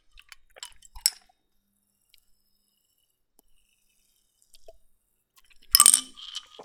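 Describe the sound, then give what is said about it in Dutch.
Glass marble rattles inside a Ramune soda bottle, giving faint, bright clinks early on, then a long quiet gap and a louder cluster of clinking rattles near the end. “De knikker die hierin zit, zorgt ervoor dat je dit drankje niet naar binnen tankt. Die komt namelijk in de dop te zitten.”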